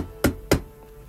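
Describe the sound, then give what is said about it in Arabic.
Two sharp knocks on an apartment door, evenly spaced and fairly loud against a quiet background, with nothing following. “سمعت الباب بيخبط.”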